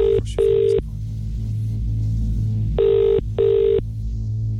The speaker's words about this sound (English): Right, shall we? Let's dial a number.